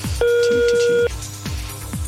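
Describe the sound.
A German Telekom phone line gives a single ringback tone, a steady, loud, mid-pitched burst lasting about a second, followed by talk.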